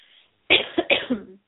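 A short fit of coughing from a tickle in the throat: a few quick, harsh bursts in a row, fairly loud, with no talk over them.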